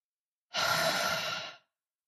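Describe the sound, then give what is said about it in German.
A single deep breath during a guided relaxation exercise: a soft, airy rush of breath lasting about a second, steady and then tapering off, heard alone with no talking. “Verstärke dieses Gefühl durch fünf tiefe Atemzüge.”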